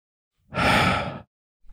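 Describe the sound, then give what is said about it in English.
A single deep breath, heard alone: one long, smooth, airy exhale that swells quickly and fades out in under a second. “I just wanted to take a deep breath.”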